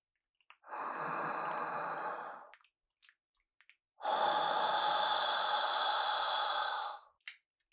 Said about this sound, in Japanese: 私が息を吐くタイミングで、思いっきり吸って。